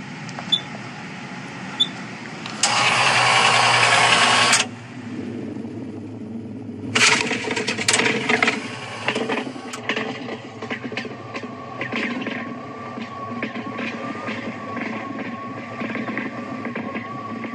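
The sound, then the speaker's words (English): The world's first popcorn machine, built in 1884, clatters and rattles mechanically with rapid clicks. Two loud bursts of harsh hiss cut in early, and busy knocking continues beneath. “That is the world's first popcorn machine built in 1884.”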